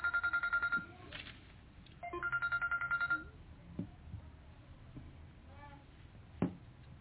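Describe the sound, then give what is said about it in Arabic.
A telephone rings faintly during a religious lesson, giving two bursts of rapid trilling ring tone about a second apart. A few soft knocks follow. “سامحوني الهاتف أشغلني”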